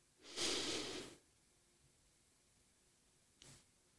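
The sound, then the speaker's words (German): A calm, slow breath is drawn in through the nose during a guided breathing exercise: one soft, airy inhale lasting about a second, then near silence and a brief faint sniff. “Atme jetzt ganz ruhig 4 Sekunden lang ein durch die Nase.”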